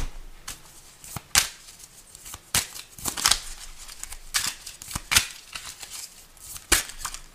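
Tarot cards being shuffled by hand: many crisp, irregular snaps and riffling clicks, fairly quiet, scattered over several seconds without speech.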